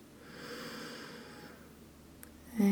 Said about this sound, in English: And slowly exhale.